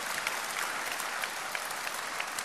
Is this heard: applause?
yes